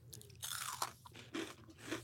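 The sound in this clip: Crunching and chewing of a Twix-style Reese's peanut butter candy bar: a few crisp, quiet bites followed by moist chewing bursts, heard on their own with no talk.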